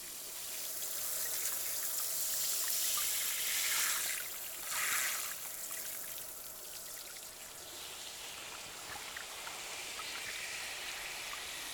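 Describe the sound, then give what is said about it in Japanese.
Water running steadily as a rinse flows, a continuous broad splashing wash that swells into a short louder gush near the middle and then settles back to an even stream. No one talks. “こちら側も流していきますね。”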